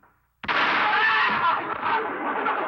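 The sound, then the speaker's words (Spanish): A gunshot is fired into the air, a single sudden sharp onset. A long, loud, broad rushing wash of noise follows for a couple of seconds. “Voy a dar un balacito al aire. Cuando oiga el tronido, del susto se va a levantar”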